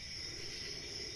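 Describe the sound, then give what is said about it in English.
Crickets chirp at night in a steady, continuous high trill that holds an even loudness throughout, with no voices and no other sounds. “So it's nighttime. You can listen, you can hear the crickets chirping.”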